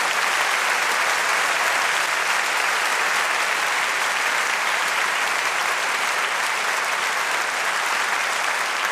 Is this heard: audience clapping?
yes